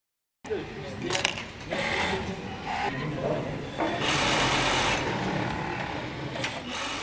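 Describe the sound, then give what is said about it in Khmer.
Sewing machines whirring and rattling in a Rwandan textile factory where hundreds of tailors sit side by side, a dense, continuous mechanical clatter with voices mixed in underneath. “សំឡេងចង្វាក់នៅក្នុងរោងចក្រនៅរោងចក្រវាយនភ័ណ្ឌក្នុងប្រទេសរ្វ៉ាន់ដានេះកម្មករកាត់ដេររាប់រយនាក់អង្គុយក្បែរគ្នានៅតាមម៉ាស៊ីនដេរទាំងឡាយ”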